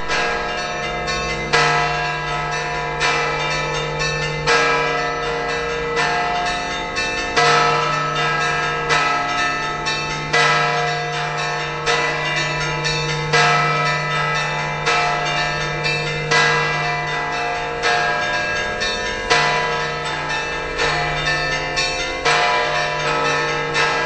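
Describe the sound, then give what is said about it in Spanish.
Bells ring in a continuous peal: many bright, evenly paced strikes with long overlapping ringing tones over a low sustained hum, loud throughout with no voices. “Algunas son efectivamente campanas, como estas.”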